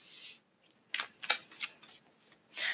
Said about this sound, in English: So I'll take the Justice card out.